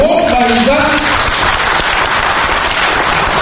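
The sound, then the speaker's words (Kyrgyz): Applause from a seated audience closing a deputy's speech on a Kyrgyz-language broadcasting law: dense, steady clapping held at an even level throughout, with a voice briefly over the opening moment. “Эл депутатынын сөзүнүн аягын олтургандар кол чабуу менен колдошту.”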